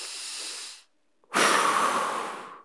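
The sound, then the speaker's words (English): Two deep, breathy airflows. A softer one comes first, then a short silence, then a louder and longer breath that slowly fades. No talking is heard. “take a deep breath right now in your home. Go ahead, do it.”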